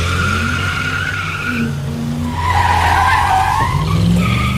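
Car tires spinning and squealing under hard acceleration at a traffic light: a loud, sustained shriek whose tones waver up and down over a steady low engine drone, continuous throughout.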